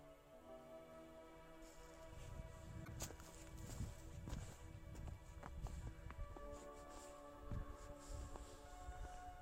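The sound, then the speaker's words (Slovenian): Footsteps of people walking along the Slovenia–Italy border, many steady steps against a sustained tonal background with a low rumble. “Zdaj hodimo po Italiji. Zona italijana.”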